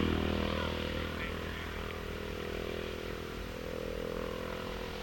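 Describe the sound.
A racing motorcycle speeds by at the 1964 Southern 100 road race, its engine a loud, raspy roar that is strongest at the start and then settles into a steady, throbbing drone.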